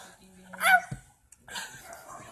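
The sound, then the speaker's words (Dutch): Dogs barking outside, a few short, sharp barks rising out of background voices and noise, then a brief quiet gap before the murmur returns. “die honde wat buiten blaf. Ja, is honde, dat is een hond. Daar is een hond, daar is honde,”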